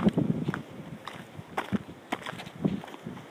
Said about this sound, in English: Walking on a dirt road outside a neighborhood.